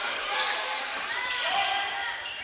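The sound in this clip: A basketball being dribbled during a game between teams including the Mules, faint repeated bounces nearly buried under a constant wash of crowd noise.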